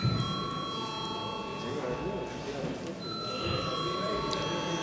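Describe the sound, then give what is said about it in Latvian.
An electric voting bell rings in the Latvian Saeima parliament chamber before a vote, a steady high buzzing ring that holds for a couple of seconds, breaks off briefly, then sounds again to the end. “Lūdzu zvanu.”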